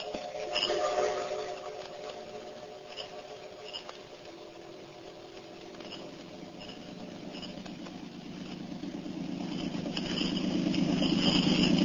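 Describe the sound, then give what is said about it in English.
A motor launch engine running on the water, a steady low droning rumble with a faint rhythmic patter that slowly swells louder toward the end. “I'm just going up front of the launch to speak to Dr. Ellis a moment. Ellis, want me to take the wheel for a while?”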